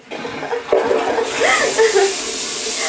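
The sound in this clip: An automatic toilet flushing, giving a loud, steady rush of water that swells in quickly and keeps roaring without a break.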